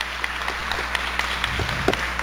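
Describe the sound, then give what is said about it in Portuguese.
An audience applauding during a worship service, heard as scattered, irregular claps of varying strength over a low, steady hum. “Pode aplaudir, pode aplaudir, está sendo quebrado.”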